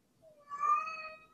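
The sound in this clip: A tomcat gives a single meow, a fairly soft tonal cry that swells in the middle and then tapers away, with nothing else heard.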